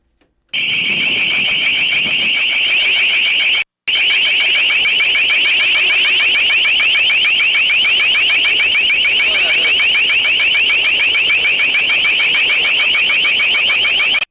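Harsh, piercing alarm-like blare played by police in Pittsburgh to clear a street, a loud, rapidly pulsing high-pitched tone that runs continuously, broken by one brief dropout early on.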